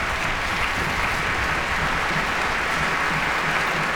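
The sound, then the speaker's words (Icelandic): Audience applause greets an orchestra's trumpet, trombone and tuba players as they stand: dense, even clapping that stays loud and steady from start to end. “Stefáns Jóns Bernharðssonar og hún býður hér trompetleikurunum að standa á fætur taka við sínum hlut fagnarlátana og básununum og túpunni”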